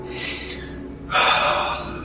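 Heavy breathing from a man lying on his back in a warm, fetid cavern, a breathy gasp followed after about a second by a louder, rushing breath over a steady low hum.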